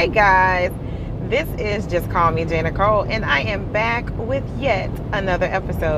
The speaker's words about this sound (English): And if you hear some automobile humming in the background